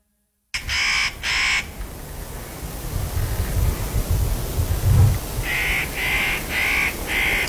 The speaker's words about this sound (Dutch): dit is de notenkraker, hè?